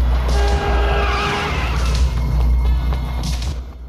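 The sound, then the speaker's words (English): A car swerves on a city street, tires squealing and skidding over a steady roar of engine and road noise. The sound stays loud and continuous before easing slightly at the end. “A car swerves to avoid them.”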